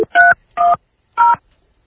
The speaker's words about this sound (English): It's always a challenge to dial this phone. Sometimes I don't even do it. Do I have to dial 9? You don't even know. Evidently, I do.